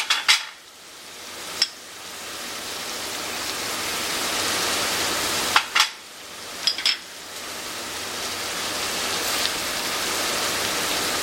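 Lentils are tipped into a pan of frying meat, setting off a steady hiss of sizzling broken by a few sharp metallic clinks.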